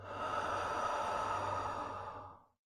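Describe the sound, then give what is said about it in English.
One slow, deep breath in through the nose and out through the mouth makes a soft, airy rush that lasts over two seconds before fading into silence. “Take a slow, deep breath in through the nose and let it out through your mouth.”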